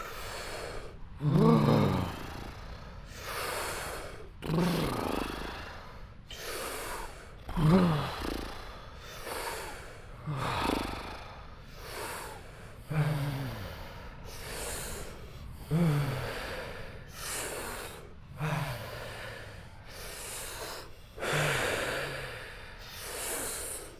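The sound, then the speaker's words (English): Deep breaths are drawn in through the mouth during a guided breathing exercise, filling the stomach and chest: a slow, steady series of audible, slightly snorting inhales about every three seconds, each followed by a softer release. “we'll just inhale and go on your own pace. How are we doing? Nose inhale or mouth? Go for the mouth and just fully fill in the stomach and fill in the chest as you do it.”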